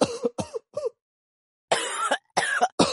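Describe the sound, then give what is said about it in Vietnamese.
A man coughs dryly after smoking too much. Two clusters of three short, harsh coughs are separated by a pause, and the second cluster is louder and more drawn out. “Tần Châu ho khan vài tiếng, nhưng vẫn không buông điếu thuốc trên tay”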